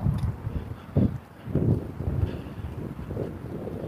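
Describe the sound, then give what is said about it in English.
Wind buffets a microphone outdoors among trees, producing a steady low rumble with soft irregular gusts and a few stronger puffs. No voices are heard. “I'm not actually hearing the wind blowing through the trees. I'm being rustled by the wind.”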